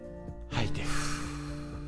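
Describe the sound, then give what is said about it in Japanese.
A deep breath in during a guided relaxation exercise: a long, airy inhale that starts abruptly and holds over soft, steady background music. “最後にね深呼吸していきましょうしっかり息吸って”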